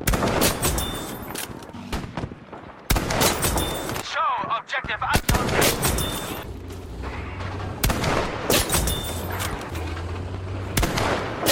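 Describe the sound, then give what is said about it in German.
A video game plays its headshot kill sound amid gunfire. Repeated bursts of shots are split by a brief warbling electronic chirp in a quiet gap midway, and then the loud shooting resumes. “Wenn man es also schafft, einen Gegner mit einem Kopfschuss zu erledigen, dann gibt es dieses eine Geräusch.”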